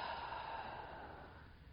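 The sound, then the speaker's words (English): A slow, deep breath through the mouth during a guided relaxation exercise, a soft, steady airy hiss that fades slightly toward the end. “Deep breath in and out through the mouth.”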